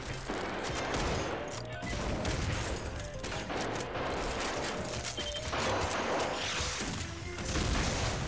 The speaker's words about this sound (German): Nun knallt es mehrmals. Laufen, knallen, Schreie, Musik, Automotor, Schüsse.